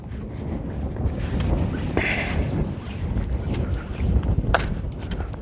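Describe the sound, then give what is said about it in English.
Wind blowing in strong gusts, a continuous deep rushing rumble that stays fairly loud and steady from start to end, with slight surges and no voices. “More wind.”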